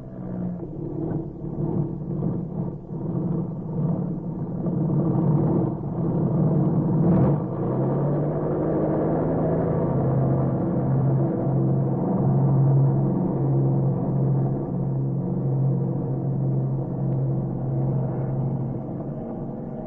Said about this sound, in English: Stand where you are until Purcell gets off the ground. You have a gun. Yes. Don't try to get away. Purcell is ready to take off.